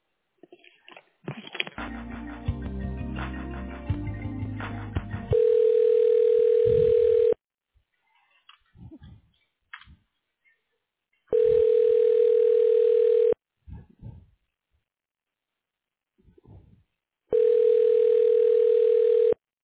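Telephone line tone during a call transfer: a steady tone in three long bursts with pauses between them, after a brief busier burst of sound at the start and a few faint clicks in the gaps.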